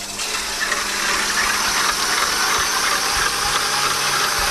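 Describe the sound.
An electric mixer whips cream with a spoonful of sugar. The motor gives off a steady, loud, whirring drone with slight rattling, continuous and without voices.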